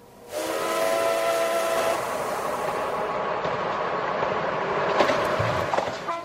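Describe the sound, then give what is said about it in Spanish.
A train's warning whistle sounds as a sustained, harmonic tone for nearly two seconds on a metro carriage about to head into a tunnel, over a steady, loud rolling rumble that carries on after the whistle stops. “Se oyó el silbato de aviso y las puertas se cerraron.”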